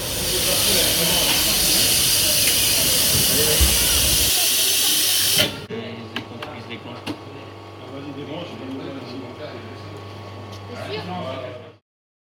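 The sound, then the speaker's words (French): Loud, steady hiss of steam from a coffee machine in a café runs for about five seconds, then cuts off abruptly, leaving a quieter low hum with small clinks and clatter. “On y entend plusieurs bruits. La machine à café.”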